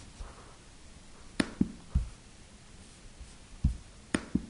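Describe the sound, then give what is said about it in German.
Handwriting: soft scratchy pen strokes on paper, mostly faint, broken by a few sharper taps and scrapes at uneven intervals. “Nein, ich schreibe euch eine schöne auf.”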